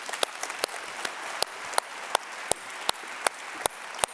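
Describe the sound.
Audience applause welcomes a guest speaker, an Ohio native and Ohio State fan, at a church service. A dense wash of clapping carries a steady, evenly spaced beat of sharper claps that runs throughout.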